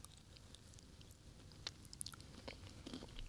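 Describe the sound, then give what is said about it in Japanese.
Eating walnuts, black beans and cream cheese together in one mouthful: quiet, moist chewing with a few faint crisp crunches scattered through, heard alone without talk. “じゃあちょっとこのチーズとくるみと黒豆をいっぺんにいただきます”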